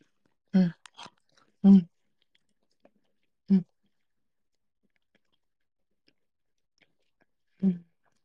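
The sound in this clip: Someone chews egg topped with mustard in four short, soft bursts of mouth sounds, with quiet pauses between them.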